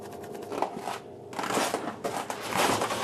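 An ice core sample is cut at the one-metre mark, giving a rough, crunching scrape in uneven bursts with a brief quieter pause near the middle, then grinding on more loudly.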